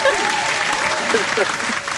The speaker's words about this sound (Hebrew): טוב, אתם גם שחקנים, אז בטח אתם נורא אוהבים כפיים. איזה סאונד יפה זה כפיים.